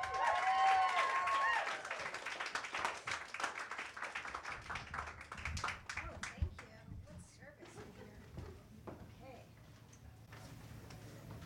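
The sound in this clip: An audience applauds a featured poetry reader at an open mic night, starting as loud, full clapping that thins over several seconds into scattered, faint individual claps.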